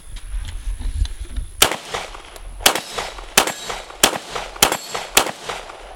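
Sharp gunshots from a firearm fired during long-distance shooting drills: six loud cracks at roughly even intervals of just over half a second, after a stretch of low rumbling.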